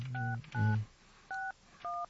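Touch-tone telephone dialing as a live call is placed: four short, steady electronic beeps, the first two louder and overlaid with a low hum, the last two cleaner and evenly spaced.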